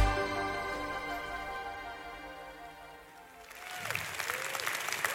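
Applause at a worship service breaks out as a sustained musical chord fades. Scattered clapping rises quickly and fills the last second and a half.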